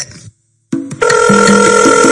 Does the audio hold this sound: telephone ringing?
yes